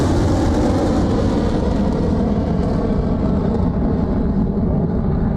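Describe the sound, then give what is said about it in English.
A HASTE rocket at ignition and lift-off gives a loud, steady, deep roar with heavy low rumble, sustained throughout without pauses. “5, 4, 3, 2, 1. Ignition. Lift off.”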